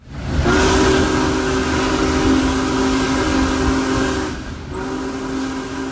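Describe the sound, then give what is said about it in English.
The massive Big Boy 4014 steam locomotive rumbles loudly under a long, sustained whistle tone that dips briefly near the end and then resumes. “The Big Boy locomotive continued its march toward Northeast Pennsylvania today with a trip from Sayre, Pennsylvania to Owego and Binghamton in New York.”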